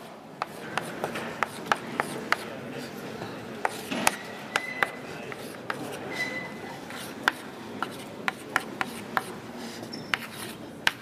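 Writing on a board during a mathematics lecture: many quick tapping strokes and scratchy rubbing in an irregular rhythm, continuing steadily throughout.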